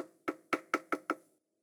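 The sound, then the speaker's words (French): Five sharp knocks on a door, evenly spaced and fairly quick, each a crisp rap with a short decay, alone and quiet. “frappa à la porte”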